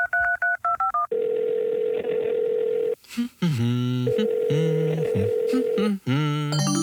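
A telephone being dialed: a rapid run of touch-tone keypad beeps, then long steady tones on the line, separated by brief melodic sounds.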